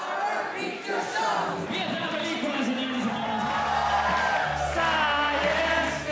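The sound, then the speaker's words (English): Audience at a Rocky Horror Picture Show screening in Barcelona, Spain, singing along en masse, a dense, loud wall of many voices with whoops and yells rising over the steady crowd. “Here's a clip from a video of an audience singing along to the Rocky Horror Picture Show in Barcelona, Spain.”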